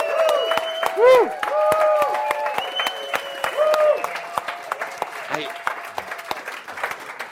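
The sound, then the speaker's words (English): An audience at a live gathering cheers and whoops, with loud rising and falling 'woo' calls over many claps and crowd noise, building then easing off toward the end. “so let's take a deep breath and let's hoot and holler”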